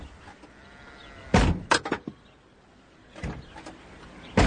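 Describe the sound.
Clunks and rattles of someone trying a locked car door with a broken lock: a few sharp, loud knocks in separate bursts with quiet gaps between them.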